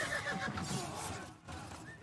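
Horses whinny as they rear up when a king is attacked on horseback and swords are drawn, with shrill neighs at the start and again near the end over a low, restless commotion.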